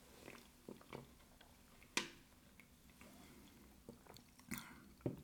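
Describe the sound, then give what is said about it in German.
A small sip of a drink shows up as faint wet mouth clicks and soft slurping, with a few sharper clicks scattered across a quiet background. “Erstmal einen kleinen Schluck.”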